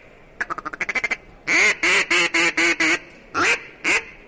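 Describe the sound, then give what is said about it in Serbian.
Duck call lure imitating a duck: a rapid run of short, clipped quacks, then a series of longer, loud, raspy nasal quacks with brief gaps between them, all without talk. “Pa doziva ovaj patku.”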